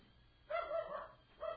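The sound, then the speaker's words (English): A dog barks twice, faint and short, from a backyard, the first bark slightly longer than the second, over a quiet background. “My dog's in the backyard barking his ass off.”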